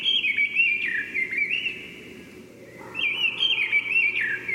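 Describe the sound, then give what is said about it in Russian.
Mistle thrush singing: two fluted, whistled phrases of high notes separated by a brief pause, moderately quiet and alone. “Послушаем, как поет деряба.”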